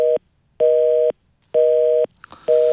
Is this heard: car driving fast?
no